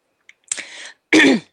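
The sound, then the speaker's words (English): Breathy exhalations from a breathing demonstration: a soft airy puff, then a longer, louder rush of breath with a slightly rough, voiced edge, each lasting under half a second, with near silence around them. “Exhale. And you do it quietly. I'm doing it so you can see approximately”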